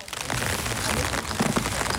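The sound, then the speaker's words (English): Rain falls steadily in a huge cemetery in Magdeburg, Germany, lined with rows of war graves. It makes a continuous, fairly soft patter and hiss of drops striking surfaces, with no break. “It's raining”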